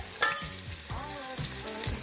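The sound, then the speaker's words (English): Onions frying in olive oil in a soup pot, a faint, steady sizzle with occasional scraping stir sounds throughout. “I'm going to add some olive oil. What, an eighth of a cup to a quarter cup? I don't want to tell you how much. I'm going to add the onions.”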